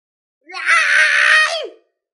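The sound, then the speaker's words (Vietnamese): A monster's enraged roar: one loud, sustained, harsh scream-like cry lasting just over a second, with its pitch dropping sharply at the very end. It is heard alone, with no talk. “Ma Chùy gầm lên.”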